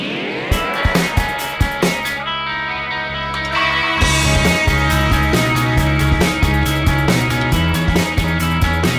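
A post-punk, indie-style theme tune opens with sparse, punchy drum hits and ringing tones, then a fuller, louder band sound comes in about halfway, with driving percussion and sustained chords continuing to the end, with no voices.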